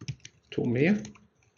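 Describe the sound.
Typing on a computer keyboard while entering text into a software field: a few light, quick key clicks before and after a short voiced sound.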